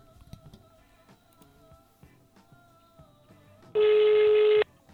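A single loud electronic telephone tone, under a second long, sounds as a phone number is dialed from a radio control room, standing out over faint background sounds.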